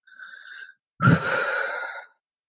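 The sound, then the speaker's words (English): A deep breath: a soft, brief inhale, a short pause, then a longer, louder exhale that sounds alone with no talk. “I'm going to take a breath or two.”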